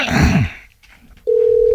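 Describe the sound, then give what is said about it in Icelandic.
A steady, single-pitched telephone dial tone sounds as a call is placed to a sports centre. It follows a brief burst of speech and a short pause, and holds unbroken and fairly loud until the end. “Þú ætlar að hringja í íþróttamiðstöðin Blönduósi”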